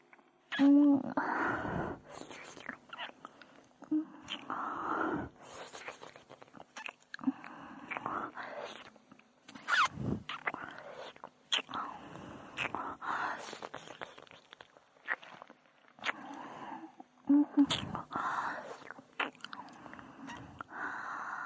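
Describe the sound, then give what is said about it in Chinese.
Wet ASMR ear-licking mouth sounds: many soft, irregular licks, smacks and slurps continuing close and intimate, with breathy whisper-like noise between them. “好了，这边耳朵也舔干净了，就是另一只了。”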